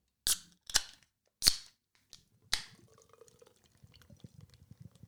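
A drink can is cracked open, with a few sharp metallic clicks and snaps followed by faint, soft liquid fizzing.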